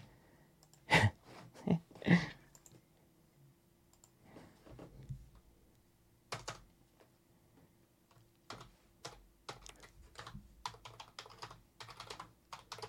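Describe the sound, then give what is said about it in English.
Fingers type on a computer keyboard in scattered bursts of faint clicking keystrokes. A few louder knocks come early, and the typing grows denser and quicker toward the end. “I got to type something for him, too.”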